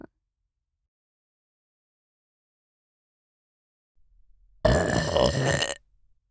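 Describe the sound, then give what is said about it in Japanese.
A single drawn-out burp, blown close into someone's ear, rumbles loud for about a second after a faint lead-in, then stops abruptly into silence. “こうやってお主の耳にゲップを吹き込んで神の力を注入するのじゃ。”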